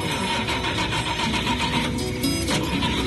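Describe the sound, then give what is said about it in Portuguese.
A Chevrolet Chevette car engine runs with a loud, dense mechanical drone and rattle that continues steadily without a break. “vamos ligar o nosso chevetinho.”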